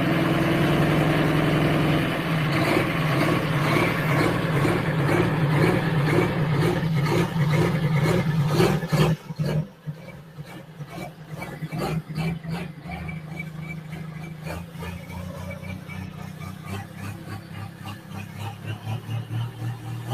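A tractor engine runs hard during vertical tillage with a loud, rhythmic pulsing drone. Midway it drops briefly and turns rougher, then settles into a lower, uneven throb that builds again toward the end.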